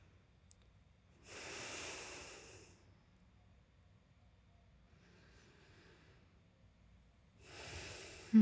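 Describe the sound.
Slow, soft breathing of two people breathing together, long gentle breaths separated by quiet pauses, faint and hushed, with a brief click near the start.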